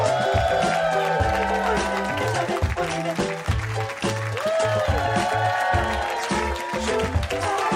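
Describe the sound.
Applause and cheering from a live show audience, a steady, loud wash of clapping that runs the whole stretch alongside music.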